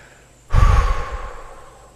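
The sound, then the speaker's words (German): A deep exhale through the mouth during a guided breathing exercise: one strong, breathy release that starts abruptly, then fades away over about a second, with no talk. “Und dann lasst ihr die Luft einfach wieder durch euren Mund raus. Komplett ausatmen.”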